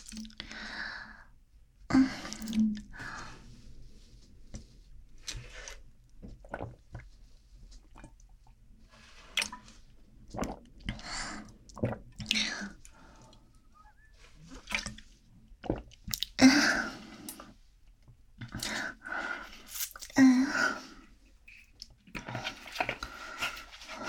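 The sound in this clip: Gulping and swallowing as a woman drinks down a drink that was specially ordered for her, many wet swallows with soft breaths and sighs between them, fairly faint overall.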